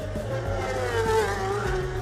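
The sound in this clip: A road racing motorcycle roars past at high speed near Parliament Square during a road race. Its engine note is loud and sustained, a buzzing, high-revving whine with little break across the whole pass.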